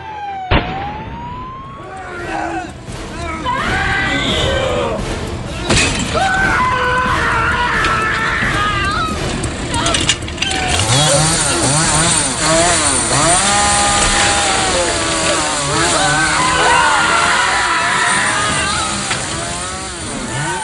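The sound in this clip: Screams and a running chainsaw from a horror film set in Texas, where a man tries to dismember a woman with the saw. A loud, continuous buzzing drone runs for about twenty seconds with high, wavering cries rising and falling over it.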